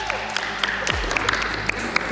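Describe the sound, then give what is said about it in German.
Pupils cheer and clap at a school geography quiz after a correct answer. Dense, busy clapping and crowd noise with scattered sharp claps runs steadily throughout at a moderate level. “Da gab es heute direkt Jubel, zu Recht.”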